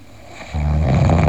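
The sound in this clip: A person snores in deep sleep, a low, rough, droning snore that swells in partway through and holds steady and fairly loud to the end.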